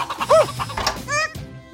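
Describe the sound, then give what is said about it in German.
Chickens clucking in a farmyard as a flock is chased back into its pen: a few loud, sharp squawks and clucks with bending pitch, one after another, with no talk. “Huhn war gar nicht beeindruckt und flatterte zu den anderen, die quer über den Hof rannten. Doch der Superhund flitzte hinterher und trieb die ganze Hühnerschar in ihr Gehege”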